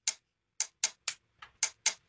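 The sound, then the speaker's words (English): Quiz countdown timer ticking: about eight crisp, high clicks at slightly uneven spacing, each one short and sharp, with silence between them and no voices. “And we will start our timer as soon as Cody asks you her first question.”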